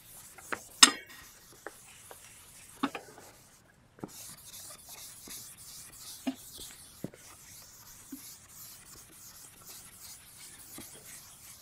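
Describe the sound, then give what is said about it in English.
Soft rubbing of an eraser wiping away part of the writing on a board: faint, uneven scraping strokes with a few scattered light knocks, mostly alone. “So I need to erase something now, but not everything, right? So let me erase this part alone.”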